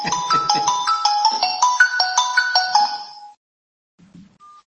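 A mobile phone ringtone plays a bright, chiming melody of quick repeating notes for about three seconds, then cuts off abruptly, leaving only a faint brief sound afterward.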